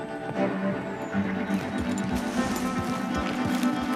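Hoofbeats of a horse carrying a rider across steep mountain passes under a scorching sun, a steady run of many irregular, muffled clops that continue throughout.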